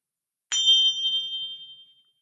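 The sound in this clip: A single bell strike opens a church worship service: one bright, high ding that rings on and slowly fades over about a second and a half, alone in silence with no talk.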